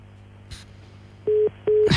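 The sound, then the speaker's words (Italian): Telephone busy tone after a dropped call line: two steady, mid-pitched beeps of equal length with a short gap between them, framed by faint clicks and a brief noisy burst at the end. “direi che è caduta la linea”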